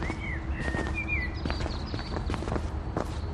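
Footsteps walk along a mountain path: a steady series of soft crunching steps at an even walking pace, moderately loud with no talking.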